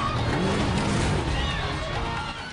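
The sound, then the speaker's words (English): Loud engine roar from a car driving through a train carriage among startled passengers, a dense steady rumble that eases slightly toward the end. “Ford drives between startled passengers.”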